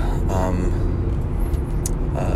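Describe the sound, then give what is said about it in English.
Steady interior road noise from a moving car: a dense low rumble that stays even throughout, with brief bits of speech over it. “I am driving back from a gig”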